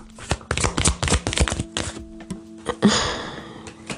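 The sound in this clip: A card drawn from a spiritual card deck: a quick run of crisp flicks and taps as the cards are handled, then a soft sliding swish as one card is pulled.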